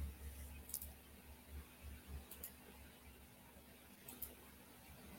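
Faint computer mouse clicking: a few crisp, quick double clicks spaced a second or more apart, each sharp and bright over a low, quiet background hum.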